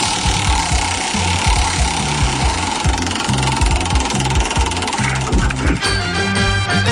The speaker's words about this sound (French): on fait tourner la roue des cadeaux